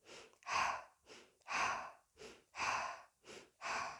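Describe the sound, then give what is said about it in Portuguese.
Circular breathing, inhaling through the nose and exhaling through the mouth in a continuous flow. A short, soft breath alternates with a longer, louder airy breath in an even rhythm, forming four unbroken pairs with no pause between them. “A respiração circular se dá num fluxo, num ritmo, em que uma expiração se liga com a próxima inspiração, e assim por diante. Desta maneira.”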